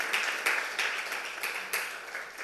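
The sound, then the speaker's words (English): A church audience clapping hands in thanks to a worship team during a service, with several sharp, loud claps standing out over a steady wash of clapping. “Okay, Esther and group, let's give them another big hand clap.”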